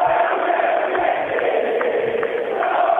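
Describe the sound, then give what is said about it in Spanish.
A loud, steady roar from an Independiente football crowd in a stadium, sustained without a break, with a few faint shouts poking through the mass of voices. “Pelota en poder de Independiente, se levanta el público del Diablo.”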